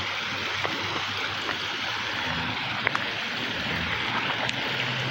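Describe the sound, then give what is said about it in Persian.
Water cascades like a small waterfall beneath an old stone bridge with 39 arches, making a steady, dense rushing roar that holds constant throughout, with a few faint clicks on top. “آره اینجا 39 پل هستش و این صدایی که میشنوی صدای آبشار مانند این پل جاریه.”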